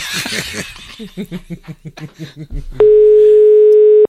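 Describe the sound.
A steady, unbroken telephone line tone sounds for over a second on an unanswered call, preceded by a run of rhythmic, pulsing chuckles of laughter.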